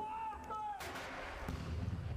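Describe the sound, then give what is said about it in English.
Booming reports from a ceremonial gun salute celebrating a royal baby's birth. A brief voice comes first, then two heavy blasts follow in succession, each trailing off into a rumbling tail. “Guns and landmarks lit up in pink celebrated the baby formerly known as Princess What's-Her-Name.”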